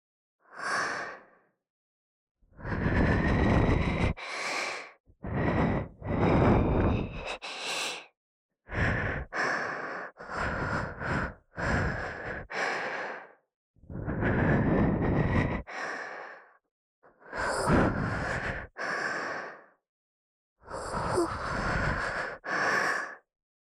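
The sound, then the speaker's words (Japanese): Soft blowing into the ear, many long airy breath puffs separated by short silences, each a gentle breathy hiss, with no talk. “もう一度、お耳を、ふうふうしていくからね。”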